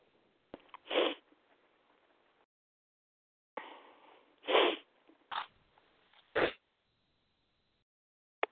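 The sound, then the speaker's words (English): Someone sneezes several times in short, explosive bursts separated by pauses of near silence. No one speaks. “Who is that sneezing?”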